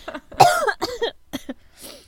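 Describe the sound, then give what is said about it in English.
A few harsh, throaty coughs from a person with a lingering three-week cough, loud and irregularly spaced, with the strongest cough near the start. “I also apologize in advance because I've had, like, a cough for 3 weeks. So, if I randomly just start coughing”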